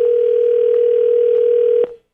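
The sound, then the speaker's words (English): A telephone dial tone sounds while a number is being called: one loud, steady, unbroken pitch that holds for nearly two seconds and then cuts off abruptly. “All right, so we dialed her up here, and let's see how this goes.”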